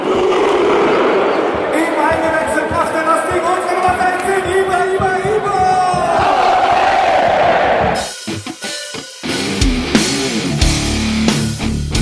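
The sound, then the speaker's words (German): Football fans chanting for VfL Borussia in the Borussia-Park stadium. Loud, sustained massed singing gives way late on to a rougher, more broken mix of crowd roar and noise. “Tja, tatsächlich rockt der VfL an diesem Tag den Borussia-Park. Und was hört man am Ende? Lauter Fangesänge über Europa.”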